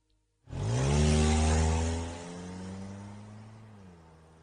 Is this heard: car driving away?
yes